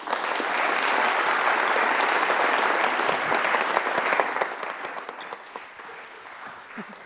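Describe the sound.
Audience applause welcoming two authors onto the stage at a book talk: dense, steady clapping for about five seconds that then thins out and tapers off.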